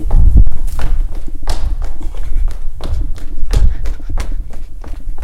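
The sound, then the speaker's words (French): Running footsteps of someone dashing off during a participatory buffet gathering, a rapid run of many heavy thuds and taps with a steady pounding rhythm. “Est-ce que tu pourrais courir après Flo pour lui dire de bien penser au bouillon de légumes ? Je vais courir.”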